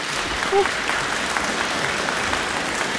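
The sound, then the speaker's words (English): Concert audience applause follows NZ Trio's performance of movements from Schumann's Six Studies in canonic form. It is a dense, steady wash of many hands clapping at an even loudness. “Well, that was the audience of NZ Trio performing one of the Six Studies in canonic form.”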